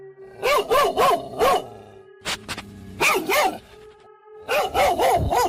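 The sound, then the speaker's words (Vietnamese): Dogs barking outside, two adult black dogs: many sharp, loud barks in quick bursts of three or four, separated by short pauses, with no voices. “tôi bị tiếng chó sủa ở bên ngoài làm cho tỉnh giấc.”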